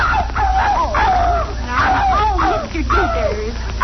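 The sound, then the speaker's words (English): A dog yelps and whimpers as its tail is stepped on, with a few high, wavering, sliding cries following one another over about four seconds, loud and unbroken. “Mr. Dithers, be careful. Don't step on Daisy's tail.”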